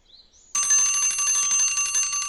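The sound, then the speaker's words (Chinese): A morning alarm clock rings with a bright, continuous metallic bell clatter that starts abruptly after a faint short chirp and keeps going loudly. “刚到第二天早上八点钟，小盲道房间的闹铃就响了。”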